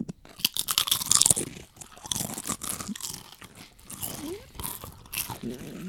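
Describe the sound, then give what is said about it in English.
Crunching and chewing of cheap restaurant-style chips eaten from a bag, with many sharp, irregular crisp bites and grinding chews that are fairly quiet and heard alone. “So this is the sound of a dollar bag of chips from Aldi, restaurant style.”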